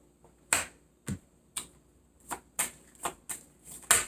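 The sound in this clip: Tarot cards are shuffled and handled in a run of crisp, sharp snaps and slaps that come at irregular intervals, each one short and clear against a quiet background.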